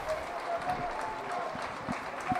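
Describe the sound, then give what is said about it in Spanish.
A football crowd applauds a substituted player leaving the pitch, a faint, steady patter of clapping that stays even throughout. “Se va Gomis, aplaude el público.”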